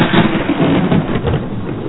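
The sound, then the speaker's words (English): Thunder rolls as a continuous low, rumbling roar that stays loud and fairly steady for the whole stretch, with no voices over it. “Did you hear that? Yeah, that was thunder.”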